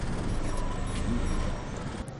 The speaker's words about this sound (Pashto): اوهو، دا موټر څنګه په شار راځي؟